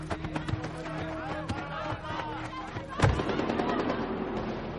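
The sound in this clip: Gunshots ring out near a children's football match. Many sharp cracks come in irregular succession, with a heavier, louder bang late in the sequence.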